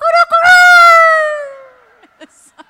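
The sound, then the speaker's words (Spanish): Recorded rooster crow played back: one long, loud, harmonic call that holds steady, then sags slightly in pitch as it trails off, followed by a few short, faint clicks. “And I started to play the sound of the gallo. Y yo empecé a poner el sonido de el gallo.”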